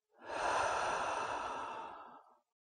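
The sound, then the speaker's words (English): A single slow breath drawn in and sighed out through the mouth, a soft airy rush that swells quickly and then fades gradually over about two seconds. “and sigh out of the mouth. Again, breathe in and out.”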